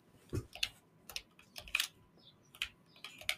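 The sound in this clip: Soft, sparse tapping as a name is written down: a few light, irregular clicks spread out one by one, faint and with no voices.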